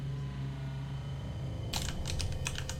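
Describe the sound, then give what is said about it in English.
A name is typed on a computer keyboard. After a stretch of low hum, a quick burst of several crisp keystroke clicks comes in the latter half. “Right, give me one second. Let me type out this guy's name.”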